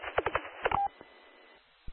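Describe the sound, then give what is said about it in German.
DTMF tones played from a phone's DTMF generator app: a quick run of several short beeps, then a steady hiss with a faint click near the end. “Ich habe nur probiert, hier über so einen DTMF-Generator vom Handy das zu machen, aber das scheint nicht zu funktionieren.”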